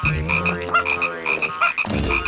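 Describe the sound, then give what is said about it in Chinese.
Small frogs croak in a tulip flower bed in town. Dense, repeated croaks overlap with rhythmic higher-pitched chirping calls, loud and continuous throughout. “是那些小青蛙，它们太害怕了，就一路跳到镇上了。”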